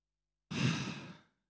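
A single deep, breathy breath about a second long, soft and airy, swelling quickly and then fading out, heard alone after silence.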